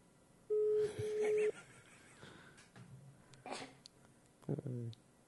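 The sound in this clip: A single steady telephone ringback tone, about a second long, sounds for a call that goes unanswered, followed by quieter stretches with a few faint voice-like bursts.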